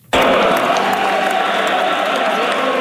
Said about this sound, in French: Christine Fréchette est accueillie par ses militants sur une ritournelle sportive.